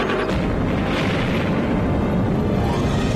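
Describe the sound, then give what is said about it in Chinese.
China's first atomic bomb explodes in the 1964 test as a loud, dense roar that stays at full strength through the whole clip, with heavy low rumble and no separate bursts or voices. “公元1964年10月16日15时，中国第一颗原子弹爆发出惊天动地的巨响。”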